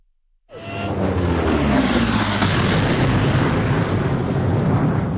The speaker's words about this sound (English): A powerful explosion aft worked its way forward to the cockpit, conjuring fire from the sparking instruments, stripping the ship of shields and propulsion, and leaving the Predator dead in space.